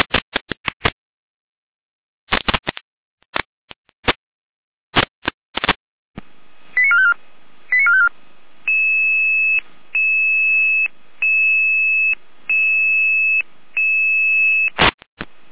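Radio pager alerting tones trigger an emergency alarm: a scatter of short sharp clicks and beeps, then a steady run of loud, sustained electronic tone bursts repeating in an even on-off pattern, ending with a final click.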